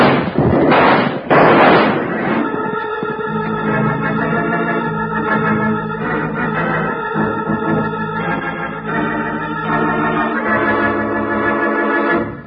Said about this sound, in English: Unlimber that rifle and give it to him.